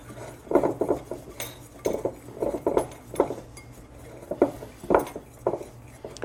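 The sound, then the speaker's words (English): A whisk clinks against a bowl while blended oatmeal is mixed into dry ingredients, giving many short, bright metallic taps in a loose rhythm at moderate loudness, with no talking. “now let's dump the blended oatmeal in there with the white ingredients and whisk that around”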